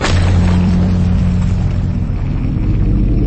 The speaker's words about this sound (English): The force of the blast shook the entire room, sending green shards flying in every direction.